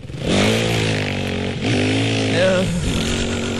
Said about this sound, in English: I am, of course, talking about dirt bikes. Unregistered dirt bikes. They're back, baby.